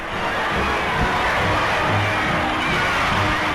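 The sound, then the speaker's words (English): Dense, unbroken crowd noise from New Yorkers lining Broadway for pianist Van Cliburn's hero's welcome home, a steady wash of massed voices and commotion with no pauses. “Van Cliburn, the musical conqueror of Moscow, returns to a hero's welcome in New York. He follows the traditional route of Lindbergh and other men of accomplishment up Broadway from the Battery.”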